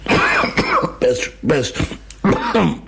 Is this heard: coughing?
yes